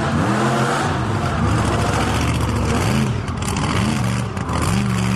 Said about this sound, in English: I think we've got enough shots of you driving the buggy.